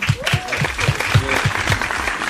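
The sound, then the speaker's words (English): An audience gives a round of applause, with dense, continuous clapping under people talking and calling out. “It's the first episode, so I just want to give a round of applause for y'all for coming out.”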